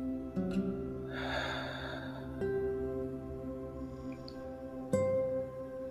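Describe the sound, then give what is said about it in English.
A slow breath is drawn in during a guided breathing exercise, heard as one soft airy rush over faint sustained tones. “Inhaling in again. Exhaling out.”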